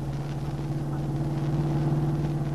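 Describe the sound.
A car driving along with a steady low engine hum, a smooth even drone that stays constant throughout with no voices.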